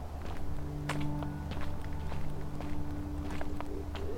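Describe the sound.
Footsteps of a person walking into a state park carrying a large duffel bag and an old metal detector, with many evenly paced steps over a low steady background hum.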